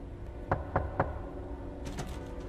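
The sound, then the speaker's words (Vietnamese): Three firm, evenly spaced knocks on a front door sound out over a steady low background hum, with no voices. “bà Liên phải tự mình bước những bước chân nặng trĩu về phía cánh cửa chính để mở ra xem có ai đang gõ cửa. Thế rồi tiếng động ấy vẫn cứ vang lên.”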